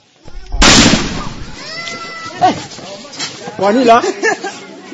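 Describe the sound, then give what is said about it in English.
A single gunshot fired by a member of a village self-defense group: one loud, booming burst near the start, followed by people talking. “One of the members of the group fires off a shot, making a few of the village residents skittish.”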